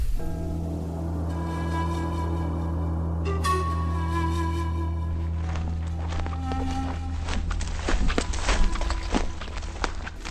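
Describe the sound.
Footsteps walking, an audio drama sound effect of a long journey on foot: many soft, regular steps grow busier and slightly louder in the second half over a steady low droning tone that runs throughout.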